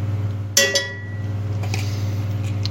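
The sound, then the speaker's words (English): A spoon scoops chunks of ghee out of a container while cooking: two close, bright metallic clinks are followed by a few faint scrapes, all over a steady low hum. “I'm just using this spoon to scoop out some chunks of ghee.”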